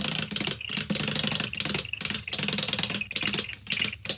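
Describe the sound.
A prize wheel spinning on a TV show gives a dense, loud ratcheting clatter of rapid clicks that runs continuously with brief, fairly regular lulls, and no voices over it.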